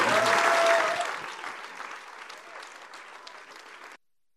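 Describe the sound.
Audience applause welcoming a pastor as she is introduced, a loud burst of dense clapping that gradually tapers off and then stops abruptly.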